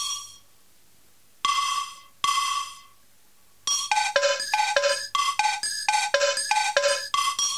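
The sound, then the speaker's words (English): A cowbell processed with a heavy reverb effect. A few ringing strikes with long decaying tails come first, followed by a quick rhythmic pattern of many hits that alternate between a higher and a lower pitch. “Cowbell Reverb 12.”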